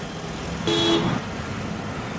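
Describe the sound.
Steady traffic rumble on a congested Copenhagen street, Jagtvejen, on a Wednesday afternoon, with one short, bright car horn toot partway through before the even road noise continues alone.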